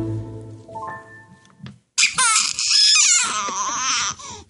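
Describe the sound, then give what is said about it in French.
A newborn baby cries loudly right after a delivery. Quieter tonal sounds come first, then a short silence, then an abrupt, shrill, sustained wail that runs to the end. “C'est un beau bébé qui pleure louchement.”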